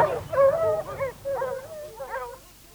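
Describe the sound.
Hunting dogs yelp and whine as they chase a wounded wild boar into a thicket. A few high, wavering cries come in quick bursts, loud at first and then fading.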